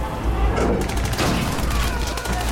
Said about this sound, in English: The ramp goes down, they charge, men being cut down in the surf by German machine guns.